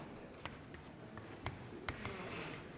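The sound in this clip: Someone writes on a board during a lecture: faint scratchy strokes and light taps arrive in short, separate bursts with soft pauses between them.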